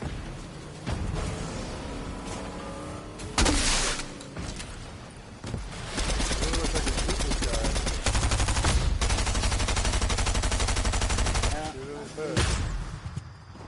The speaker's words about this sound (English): oh, they're really shooting at you with that vehicle. Yeah, the vehicle's very good.